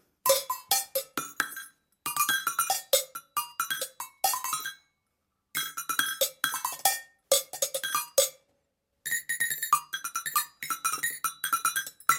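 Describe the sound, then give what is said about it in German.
Cowbells of many sizes struck with sticks in an improvised pattern: many sharp, bright metallic hits with ringing tones, grouped in four busy bursts separated by short silences. “Das sind jede Menge Kuhglocken in allen Größen. Ja, aber ich spiele auch mit Sticks. Das klingt dann so.”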